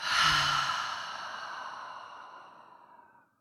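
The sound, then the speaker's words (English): A long, breathy open-mouth exhale follows a deep breath, sounding as a single airy sigh that starts strong and slowly fades away over about three seconds, with no talk. “So huge inhale in through the nose. Open mouth, exhale.”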